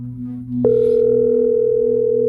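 A telephone dial tone sounds while someone places a call. A low hum comes first, then a click, and a loud, steady tone takes over and holds unbroken to the end.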